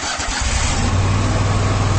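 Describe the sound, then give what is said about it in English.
A Kubota Commander zero-turn mower engine starting: a short burst of cranking, then the motor catches and settles into a loud, steady low drone. “That's the sound of the Commander, Kubota's top-selling zero-turn mower.”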